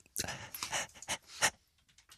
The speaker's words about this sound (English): What was the breathing bit? You were panting again there. It was weird.